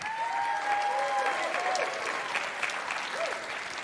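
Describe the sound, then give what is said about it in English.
Church audience applauding as a student is welcomed to the microphone: a steady spread of clapping with voices calling out over it. “Y'all give it up for Eric.”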